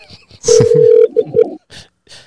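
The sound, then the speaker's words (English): Telephone keypad tones as a call is dialed: a steady mid-pitched beep followed by two shorter beeps, with people talking around them. “Let's call her. Let's see what she up to, man. Let's see what she up to. See if she pick up.”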